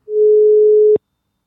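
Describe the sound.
A telephone line tone heard while a call is dialed: one steady, low, pure beep lasting just under a second, ending with a click and then silence.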